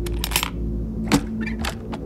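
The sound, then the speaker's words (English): Latches on a guitar case holding a Fender bass being popped open: a quick run of sharp snaps and small clicks, one louder in the middle, with no voices. “so I popped open the guitar case”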